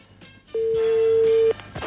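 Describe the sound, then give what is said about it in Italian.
A mobile phone call's ringing tone sounds as a single steady, mid-pitched beep lasting about a second, with faint background noise before and after. “Però prima tentiamo col cellulare, il cellulare è libero.”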